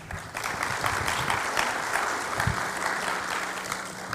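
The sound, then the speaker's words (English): An audience applauds to welcome a woman volunteer on stage. Dense, continuous clapping holds steady and fairly loud throughout, easing slightly at the end. “Welcome, Alora. Let's give her a hand.”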